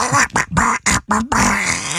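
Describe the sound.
A voice imitates Donald Duck's quacking speech. A few rapid, garbled, nasal quacks are followed by a longer drawn-out quacking phrase, loud and close, with no other sound.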